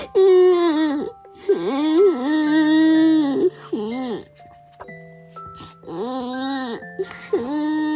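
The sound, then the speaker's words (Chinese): Child crying in loud, drawn-out wailing sobs, several strained bursts separated by short breaks and gasps. “你这哭起来倒挺快的啊啊，瞬间就哭了。跟我说说呀，哭什么？”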